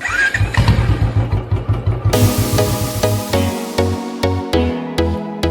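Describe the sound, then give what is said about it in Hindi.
A Bullet motorcycle engine thumps with a rhythmic, low idle for about two seconds before loud music with a steady beat takes over. “अरे बाबा अपनी bullet ठान गया।”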